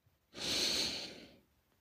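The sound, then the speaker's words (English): One slow, deep breath during a guided breathing exercise, heard as a soft, airy rush lasting about a second, on its own with no talk. “Let's take a moment right now and just breathe. Breathe in. Breathe out. Breathe in.”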